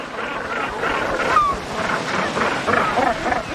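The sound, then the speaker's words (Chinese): Northern gannets calling at a breeding colony of about 3,000 pairs nesting on the sea cliffs of Lundy Island: a dense, steady chorus of many overlapping harsh, honking calls, with no pauses. “每年有大约3000对北尖鸟在伦德岛上繁殖后代，而且数量还在不断增加。”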